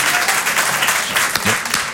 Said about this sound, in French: Moi aussi, je m'applaudis